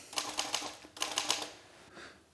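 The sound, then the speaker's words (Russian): Keys clatter on a typewriter as a heavily marked-up manuscript is retyped, the strikes coming in two quick runs of rapid, sharp taps, then a pause and a fainter sound near the end. “перестукивая на пишущей машинке исчирканную рукопись”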